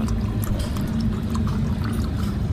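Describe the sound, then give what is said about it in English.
Liquid pours in a steady, unbroken stream as a quadruple shot of Jaeger is poured, with a continuous splashing gurgle lasting the whole clip and no talking. “He poured himself a healthy, like, quadruple shot of Jaeger.”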